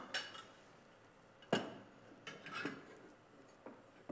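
An egg being lightly beaten in a bowl for a dough: a few faint, scattered clinks of a utensil against the bowl, quiet and without talk.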